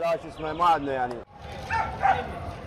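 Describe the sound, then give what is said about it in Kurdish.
Dogs bark at a busy street animal market in Baghdad. Loud, drawn-out yelping cries come first, then after a brief break a rougher run of barks and yips follows. “لەم گەرما دژواری بەغداددا سەگ و پشیلە و ئاژەڵی جۆراوجۆر لەسەر شەقامەکان دانراون و خاوەنەکانیان چاویان لە کڕیارانە.”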